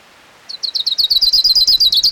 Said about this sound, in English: Here's orange crown warbler number 2.